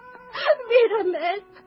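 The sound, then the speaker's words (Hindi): A princess wails and sobs loudly over her collapsed palace, her drawn-out, wavering cry rising and falling in a few sustained bursts. “अपने गिरे हुए महल को देखकर वो फूट फूट कर रोने लगी।”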